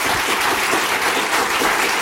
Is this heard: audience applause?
yes